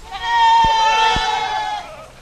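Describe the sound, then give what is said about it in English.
A goat doe bleats in one long, loud, wavering cry that holds steady before trailing off abruptly. “The does will have their babies next May in the research pastures, eating, Nolden says, what goats are born to eat.”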